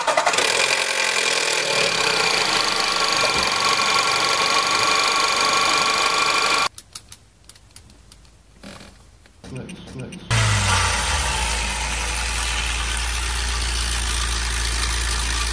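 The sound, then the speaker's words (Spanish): Car engine running with a loose timing chain caused by damaged chain tensioners, giving a loud, steady, fast rattling clatter. Midway the noise drops out, leaving a few sharp clicks, then the engine returns with a heavier low rumble. “Que esta cadena contiene unos tensores, que si se dañan, la cadena está muy floja y se puede escuchar así.”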